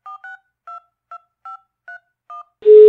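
Telephone keypad tones dial an international call: seven short, evenly spaced beeps at slightly varying pitches, followed by a loud steady tone that starts near the end.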